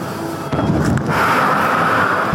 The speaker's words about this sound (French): Des rafales d'armes automatiques retentissent dans plusieurs quartiers de Bangui la capitale centrafricaine est en état de siège.